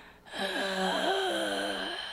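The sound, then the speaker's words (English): A voice imitates a pet's low, annoyed hum breathed out from the throat: one sustained, groan-like tone lasting nearly two seconds, steady and fairly loud with no talk. “if he's annoyed, he breathes out this like very low hum from his throat. I'll try and demonstrate it for you.”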